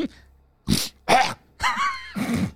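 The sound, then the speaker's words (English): A person gives a deliberate, forceful nasal snort, one of several short, harsh bursts of breath and voice separated by brief silent gaps. “I had to get the snort in there. I don't know if that was very good. That actually kind of hurt my sinuses.”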